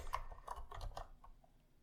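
Faint typing of code on a computer keyboard: a few irregular, soft keystroke clicks and taps in quick succession, with no talking.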